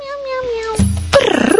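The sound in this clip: A female cat meows in drawn-out, tonal cries, loud and clear, with a brief burst of other low noise partway through and a quick run of pulsing calls at the end.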